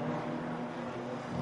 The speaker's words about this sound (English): 33 Hyundai, the Honda car is out. There goes the Honda on Arjuna's pit mic there.